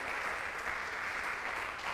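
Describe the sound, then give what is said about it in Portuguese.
A church audience applauds in a steady, dense patter of clapping that stays fairly faint and even throughout the short moment. “Dá um aplauso aí, dá um glória a Deus aí em nome de Jesus.”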